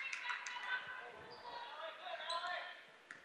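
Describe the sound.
Basketball being dribbled on a court during a high school girls' game, a few bounces heard among steady crowd noise and voices.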